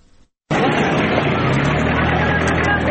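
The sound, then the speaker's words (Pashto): Traffic on the Spin Boldak–Chaman road in Kandahar, where hundreds of laden trucks and Datsun vehicles cross from Pakistan into Afghanistan: a dense, loud engine roar starts abruptly after a brief silence and holds steady throughout. “د کندهار د سپین بولدک چمن لار دلته په کډبار په سلګونه لاري او دانسن موټرونه له پاکستان څخه د افغانستان خاورې ته داخليږي.”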